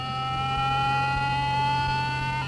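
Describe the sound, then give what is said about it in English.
A radio signal from a rapidly spinning pulsar rendered as sound: a steady electronic drone with a low hum beneath several high, whining overtones, held unbroken and fairly loud throughout. “This intriguing sound actually comes from a rapidly spinning star called a pulsar.”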